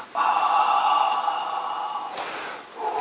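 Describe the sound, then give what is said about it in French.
A forceful exhalation, blown out during a Catholic religious talk about breath: one long, steady rush of air lasting about two seconds, loud and breathy, with a faint whistling edge. “Fait sortir son souffle comme ça.”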